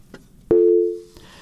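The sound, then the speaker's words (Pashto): A telephone busy tone sounds after a call line drops: one loud, steady mid-pitched beep holds for about half a second and then fades, heard alone with a faint click just before it. “ټلیفون لیکي قطع شوی، بل ته ورشو”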